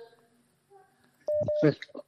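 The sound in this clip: Telephone dialing tones reconnect a dropped call: two brief, steady mid-pitched beeps in quick succession, overlapped by a voice.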